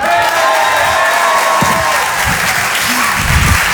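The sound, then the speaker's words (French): A comedy show audience applauding: steady, loud clapping from a crowd, mixed with some cheering and whoops, sustained for several seconds. “Bérangère Krief, on peut l'applaudir très fort.”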